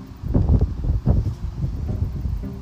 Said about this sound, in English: I know there's a lot of wind in the background, and I'm just outside trying to soak up as much positivity as I can